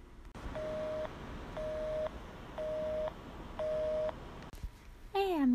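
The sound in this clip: Telephone ringing tone of an unanswered call: four steady beeps of about a second each, separated by short gaps, then a click and a brief descending electronic tone at the end.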